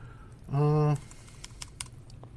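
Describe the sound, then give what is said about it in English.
Keys tapped on a computer keyboard make a few light, sharp clicks. They follow a brief, steady hum-like tone. “Just press FSR, click to enter.”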